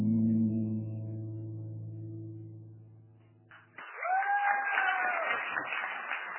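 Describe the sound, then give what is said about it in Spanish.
A live audience bursts into applause and cheering as a sustained musical chord ends. Dense clapping follows, with a few whistles or whoops rising above it, staying loud to the end. “Aplausos de verdad, ¿no? Todo. Ah, sí, todo de verdad.”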